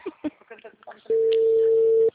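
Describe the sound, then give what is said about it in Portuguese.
Telephone busy signal on an unanswered call: after brief talk, a single steady mid-pitched tone sounds loud and unbroken for about a second. “Não, tô ligando, não atendeu. O número está ocupado.”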